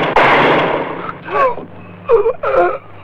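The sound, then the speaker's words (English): A single sharp, loud rifle shot bursts out at the start, fired from a top-floor window, then fades. A few strained, moaning vocal cries follow in separate bursts. “Suddenly, Silvanito, holding aloft Ramon's rifle, opens fire.”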